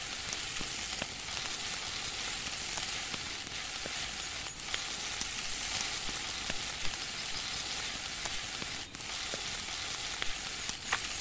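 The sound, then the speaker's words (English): Bear meat sizzles over a fire in a video game: a steady frying hiss with scattered crisp pops and crackles running throughout, with no talk. “Again, just keep hitting space over and over again, if you're cooking, and wait for the sound of the bear meat to let you know that it's done.”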